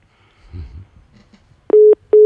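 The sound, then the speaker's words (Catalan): A telephone busy tone after a call line hung up: a faint muffled rustle, then two loud, steady beeps of the same pitch with a short gap between them. “Crec que s'ha penjat el telèfon del Xavi.”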